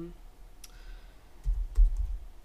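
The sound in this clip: Typing on a computer keyboard: a few soft key clicks over low, dull thumps, fairly quiet overall.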